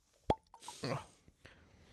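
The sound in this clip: A bottle being opened during a cocktail tasting gives one sharp pop, then a soft hissing rush that fades, followed by faint rustling.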